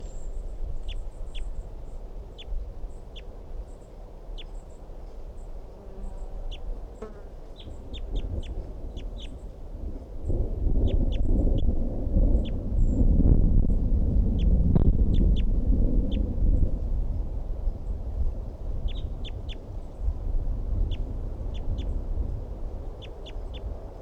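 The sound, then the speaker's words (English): Wind blows outdoors as a low, rushing rumble that swells through the middle and then eases, while many short, high bird chirps sound throughout. “Wind is blowing now.”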